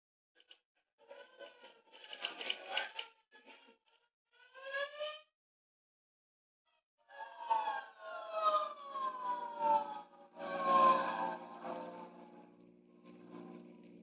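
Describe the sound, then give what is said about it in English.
A hook-and-ladder fire engine siren wails on a city street in faint, broken bursts, with sweeping tones that fall in pitch and some rougher noise between them. “Say, there's a hook and ladder on the street right now. Must have turned the another alarm.”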